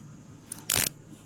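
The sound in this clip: Handcuffs clicking shut during a police stop beside a rental car: a small tick, then a sharp, brief ratcheting click over a low, steady background hum.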